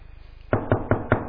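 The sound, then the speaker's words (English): Knuckles rap on a side service door of a house: five sharp, even knocks spaced about a fifth of a second apart, loud and clear after a moment of near quiet. “I went and I knocked on that side door, the service door.”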